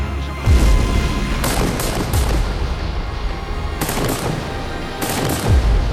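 Rifle volleys from a company of soldiers opening fire, in a dramatized 1886 May Day clash. Several sharp, crackling bursts come in quick succession over a constant rumbling noise bed.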